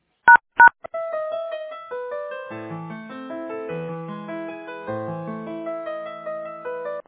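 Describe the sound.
Two short touch-tone beeps sound while a phone call is transferred to an office IT department. A steady electronic melody with shifting notes then plays through to the end.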